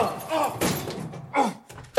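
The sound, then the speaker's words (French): A locked broom-cupboard door is tried, giving a few dull thunks and rattling knocks as it is pulled against the lock. “Ça, c'est une porte de placard. Tiens, il est fermé à clé. Bizarre de fermer à clé un placard à balai.”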